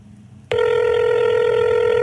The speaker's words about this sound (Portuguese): Imagino que é sexta-feira e o seu telefone toca. Um toque.